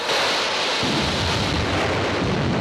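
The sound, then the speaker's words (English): A jet of water bursts up through the deck of a sinking ship in a loud, steady hissing roar of rushing spray. A deep low rumble joins just under a second in and carries on to the end. “A jet of water shoots up through the deck.”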